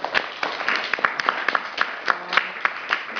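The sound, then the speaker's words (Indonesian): Workshop participants at a community history museum event applaud a presentation, with a few people clapping in a loose, fairly regular pattern of distinct claps at moderate volume. “Tepuk tangan untuk ini.”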